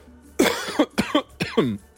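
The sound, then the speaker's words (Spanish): A run of about six sharp, harsh coughs from one person, in bursts of one or two with short gaps between them, fairly loud and with no talk. “Voy a toser, permiso, porque no aguanto más.”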